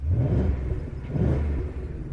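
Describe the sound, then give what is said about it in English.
Deep rumble of a 450-horsepower V8 car engine revving, a steady low-pitched growl that swells in loudness partway through. “Yes, on a 450 horsepower V8 that sounds like this.”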